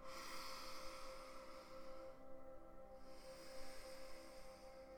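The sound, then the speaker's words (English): Deep breathing in and out: long, airy, hissing breaths with a brief quiet gap near the middle, set over a steady low tonal hum. “All you have to do is to breathe in and out deeply.”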